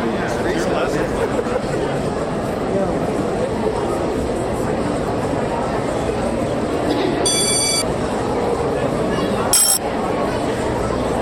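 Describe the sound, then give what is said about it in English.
A theatre bell signalling that the show is about to start rings as a brief, bright electronic tone over loud crowd chatter, with a second, shorter burst a moment later. “Oh, man, that's third bell. Dude, hurry.”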